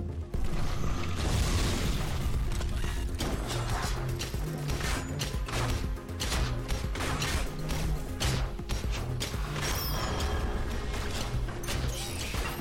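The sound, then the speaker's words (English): A spire is destroyed in a video game with dense, loud crashing and smashing, with booming rumbles and creaking mechanical clatter running almost continuously through many overlapping impacts. “Spire destroyed.”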